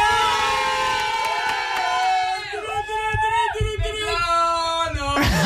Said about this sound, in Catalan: Una mica de soroll! Tenim un micro, així, per passar-lo. Treu la música, Enric, treu la música. Si us plau, públic, soroll.